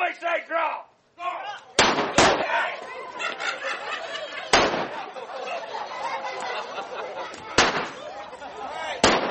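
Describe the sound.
Gunshots ring out in a historic American gold-rush mining town during a reenacted robbery: several loud, sharp cracks come at irregular intervals over steady talking and chatter.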